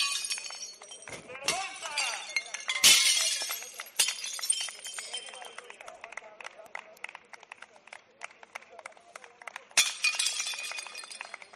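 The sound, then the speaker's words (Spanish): Plates shatter at a hospitality workers' protest outside a regional government office in Soria, several loud crashes amid a near-constant stream of clinking, scattering shards, with crowd voices in the background. “Sonidos de platos rotos y de aplausos a un sector que lo está pasando francamente mal.”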